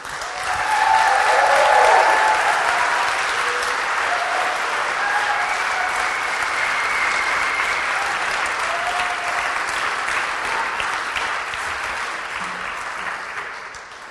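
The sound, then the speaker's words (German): Warm, sustained applause from an audience honouring a children's performance, a dense wash of clapping that swells early, holds steady for about fourteen seconds and tapers slightly at the end. “Ich möchte auch einen herzlichen Applaus noch bitten für Stibu und Miri”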